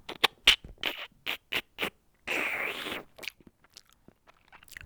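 Crunching bites into a cricket thorax: a rapid series of sharp, crisp crunches, then a longer grinding crunch, with faint clicks trailing off afterwards.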